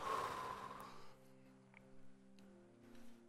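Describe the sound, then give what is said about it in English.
A deep breath taken in and then let out, the airy inhale loudest at the start, followed by softer breathy puffs over faint sustained tones. “I want everyone to take a deep breath. One more time. In, out.”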